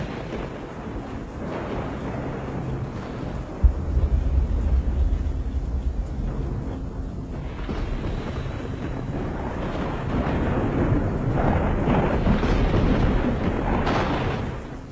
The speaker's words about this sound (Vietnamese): từ trên bầu trời một tia chớp chói lòa rạch toạc tầng không, kéo theo tiếng sấm kinh thiên động địa.